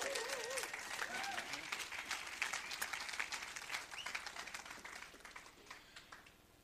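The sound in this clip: Audience applause welcoming a guest onto the stage, dense steady clapping with a few cheering whoops early on, gradually thinning and fading toward the end.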